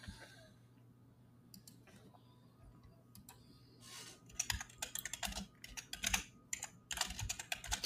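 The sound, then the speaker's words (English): Loud, rapid typing on a computer keyboard: many sharp clicks, sparse at first, then dense, heavy bursts of keystrokes through the second half, over a low steady hum. “I just typed really loud.”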